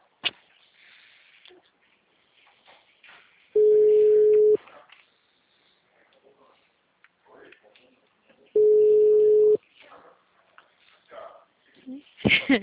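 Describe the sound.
An unanswered phone call rings out with two long, evenly spaced ringback tones of steady mid pitch. Faint, scattered background sounds fill the quiet gaps between the tones.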